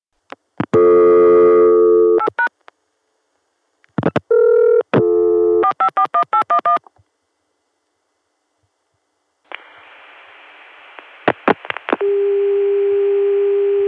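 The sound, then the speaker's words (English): Telephone line tones from a Chicago CCSA line reached through an ESS Centrex and a 454 PBX: loud bursts of multi-tone dialing signals, a hissy tone with a few clicks, then a steady held dial tone. “Chicago switch, which dials through an ESS Centrex to get to the 454 PBX, and that PBX does give us a Chicago CCSA dial tone. See you at the Chicago dial tone.”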